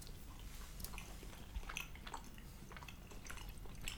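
Nibbling and chewing on goat's gouda cheese with a pale, firm paste and straw-coloured rind: faint, moist clicks and soft smacks repeat irregularly throughout, with no talking.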